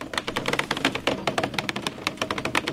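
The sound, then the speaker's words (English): Construction workers unspooling several hundred feet of fiber optic cable in the woods: a rapid, irregular run of sharp clicks and ticks, many per second, continuing steadily throughout. “That's the sound of construction workers unspooling several hundred feet of fiber optic cable.”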